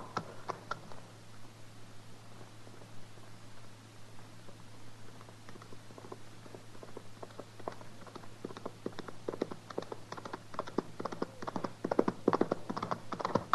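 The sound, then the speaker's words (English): Horse hooves galloping as a cowboy rides hard: a fast, dense run of clip-clop beats over a steady low hum, growing slightly louder and busier toward the end. “He's riding pretty hard. Ride like man afraid.”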